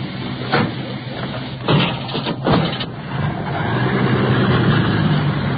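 Engine of an ambulance leaving for the hospital with an injured man, a low rumbling idle broken by a few brief knocks before the motor builds into a steadier, louder drone.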